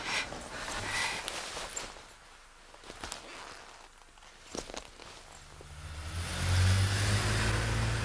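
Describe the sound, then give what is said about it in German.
A silver Mercedes car speeds up, its engine building from a low rumble to a loud, steady roar over the last few seconds. “kommt der silberne Mercedes angebraust.”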